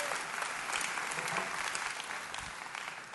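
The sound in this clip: Audience applause at Woods Edge welcoming a speaker, a steady, fairly faint patter of many hands clapping continuously that eases slightly toward the end.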